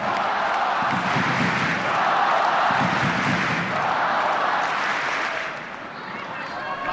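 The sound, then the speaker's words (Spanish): A tennis crowd on Court Philippe Chatrier roars and shouts for Nadal during his match against Zverev. The dense, loud wash of massed voices holds steady, then dips slightly near the end. “El comportamiento del público, yo sabía que se iban a volcar con Nadal, pero está siendo espectacular.”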